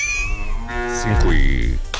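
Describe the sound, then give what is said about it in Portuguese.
A cow moos loudly in a long, low, drawn-out call lasting over a second, with a rough tonal quality, alone without talk. “Um mugido pra você e pra vaquinha.”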